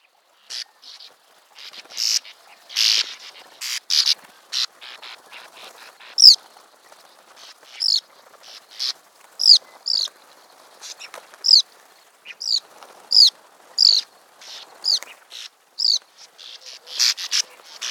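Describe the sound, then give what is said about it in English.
Bank swallow song: many short, high, dry twittering notes in quick chattering bursts that run on through the whole clip, with no voices. “Our last swallow we will discuss today is the bank swallow. Take a listen to their song and tell me, what do you think it sounds like?”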